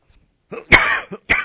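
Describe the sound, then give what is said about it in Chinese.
A few harsh coughs from someone who has been coughing repeatedly, one longer and rasping, with brief throaty bursts around it. Loud and close, with no talk. “我今天比较差哈，我一直咳嗽”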